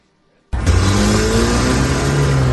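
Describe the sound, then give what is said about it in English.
A car accelerates hard and speeds away from a courthouse. After brief silence, a loud engine roar starts abruptly and holds steady as its pitch climbs slightly under the throttle. No voices are heard. “Rasheed Rice driving away from the courthouse. Blazing away from the scene when he got out of jail.”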